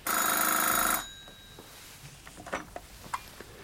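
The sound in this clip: A telephone gives one bright, loud ring about a second long. Faint rustling and a few small clatters follow.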